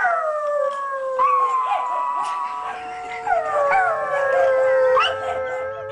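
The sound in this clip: Several dogs of a growing pack, chasing through city streets and stopping traffic, howl in long, wavering, overlapping tones that rise and fall, a steady and fairly loud chorus with brief whimpering yips between.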